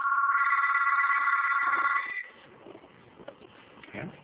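A telephone bell rings in one steady, loud, continuous trill for about two seconds, then stops, leaving only faint low rustling and a couple of soft knocks.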